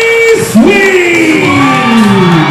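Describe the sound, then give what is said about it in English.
Loud crowd cheering and yelling for a winner at a wrestling ring event, with whoops and drawn-out shouts riding over a continuous roar of voices. “Why do these people cheer him? It just encourages him.”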